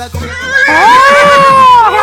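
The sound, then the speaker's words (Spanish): A horse gives one long, loud whinny with a wavering, slightly falling pitch, preceded by a short lower sound. “Sácate mi caballo para bailar.”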